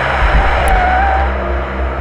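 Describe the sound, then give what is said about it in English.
A car speeds toward someone outside a diner, its engine a loud, steady roar with heavy low rumble that holds through the whole span. “That car, it's headed right... Oh!”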